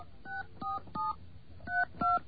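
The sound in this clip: Touch-tone keypad beeps sound as a number is dialed to reach a voicemail service. Several faint, short tones come in an uneven rhythm with brief gaps, one of them longer, and no voices are heard.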